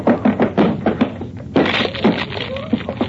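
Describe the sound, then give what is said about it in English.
Repeated heavy thumps against a locked cabin door being broken down, a quick run of blows followed by a louder splintering crash and further knocks. “Come. It's locked. Well, break it down.”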